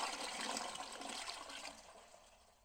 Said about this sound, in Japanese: お待たせしました。トイレの修理終わりましたよ。これでバッチリ、うんこも流れるはずです。